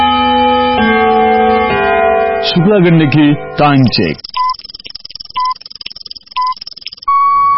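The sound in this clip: A time signal marks three o'clock in the afternoon: a tuneful chiming melody, then three short, even beeps one second apart and a longer final tone.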